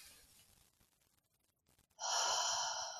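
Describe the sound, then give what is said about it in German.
A deep breath drawn in through the nose, a loud and steady airy rush that starts abruptly about two seconds in and holds to the end, after a quieter stretch of soft breathy rustling. “Ein, zwei tiefe Atemzüge zu nehmen, gerne erstmal ein durch die Nase”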